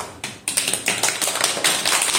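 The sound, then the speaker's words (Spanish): Applause honours mothers on their day, starting with a couple of isolated claps and then thickening into quick, scattered clapping that grows denser and a little louder toward the end. “Muy bien, pues un aplauso a todo el mundo, en especial a todas las mamás, que las queremos muchísimo.”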